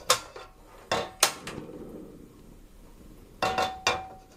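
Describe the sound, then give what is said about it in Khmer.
A utensil clinks sharply against a dish as boiled beans are scooped in: several crisp clatters in two clusters, separated by a quieter gap. “ខ្ញុំដួសសណ្ដែកដាក់នៅចាន”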